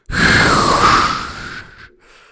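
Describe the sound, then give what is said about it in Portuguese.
One long, hard breath blown into a breathalyzer straw, a loud rushing exhale that holds strong for well over a second before trailing off and stopping. “só tem de soprar aqui nesta, nesta palhinha, encher o peito de ar e soprar aqui nesta palhinha e depois não aparece o resultado. ok. Eu então soprei.”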